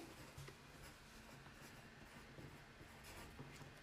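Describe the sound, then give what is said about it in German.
Faint scratching of a pen writing on a sheet of paper, soft irregular strokes over a low, steady background hiss with no voices. “Ach ich habe sie gerade auf den Blatt geschrieben.”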